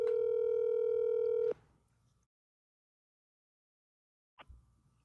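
A phone line's ringing tone plays as one steady, fairly loud tone for about a second and a half. Silence follows, and a short burst of sound comes near the end.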